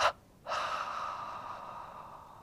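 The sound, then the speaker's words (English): A held breath released in a double exhalation during a breathing exercise: a short breathy puff, a brief silence, then a long, airy exhale that slowly fades. “we relax completely the body and we expel the breath with a double exhalation.”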